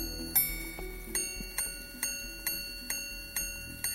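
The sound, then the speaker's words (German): Ticking of a mechanical luxury watch on a visit to a watchmaker: a steady, evenly spaced series of crisp, faint ticks over a quiet, continuous high-pitched hum. “Dieses Geräusch kostet Zehntausende und ist auf Jahre hinaus ausverkauft. Besuch beim Uhrmacher Philippe Dufour.”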